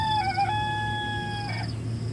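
A rooster crows in the morning at a farming family's home, one long wavering, harmonic call that holds steady and then breaks off, loud over a constant low hum.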